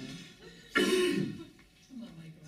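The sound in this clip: A person clears their throat once with a loud, rough rasp lasting about half a second. Quieter vocal sounds come just before and after it.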